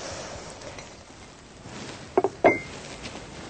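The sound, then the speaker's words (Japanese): Three quick, sharp clinks of a utensil against a bowl as grated lotus root is put into it, heard over a steady low hiss in a kitchen. “ではレンコンをすります。はい、全部ボウルの中に入れていきます。”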